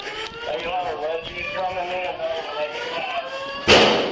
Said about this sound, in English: Shots fired.